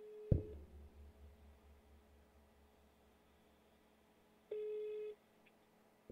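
A phone call is placed: a sharp click, then a faint steady hum, then a single long ring tone near the end, all quiet.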